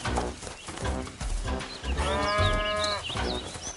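A calf moos as it is led to its mother: one drawn-out, wavering moo rises out of a dense, noisy background that runs through the whole clip.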